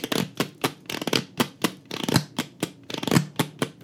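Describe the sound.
Playing cards are drawn and handled from a deck, giving many quick, crisp snaps and flicks in an uneven rapid rhythm with no talking.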